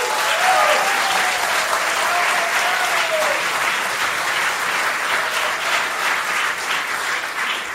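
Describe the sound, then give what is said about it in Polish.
Applause from a concert audience for a musical duo after their performance, dense and even throughout, with a brief tonal line in the first few seconds. “Jeszcze raz wielkie brawa Krzysztof Lęczowski i Michał Zaborski.”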